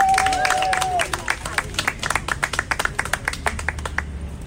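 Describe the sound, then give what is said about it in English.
Applause from a crowd at a revival march rally outside the White House: dense clapping settles into a many-beat rhythmic clap, with crowd voices mixed underneath. “Y'all give her a big hand.”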